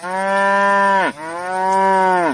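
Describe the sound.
A cow on a Masurian meadow gives two long, loud, deep moos back to back, each a rich, droning call with a brief dip between them.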